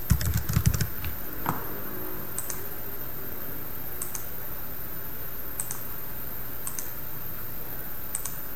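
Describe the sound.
Login credentials are typed on a computer keyboard: a quick flurry of key clicks comes first, then slower, scattered single keystrokes at irregular intervals, with no talk.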